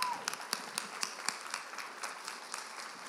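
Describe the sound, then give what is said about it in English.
An audience applauds at a church Sunday gathering, welcoming guests onto the stage: many hands clapping at a moderate level, with distinct sharp claps standing out over a steady patter. “So, will you do me a favor and put your hands together?”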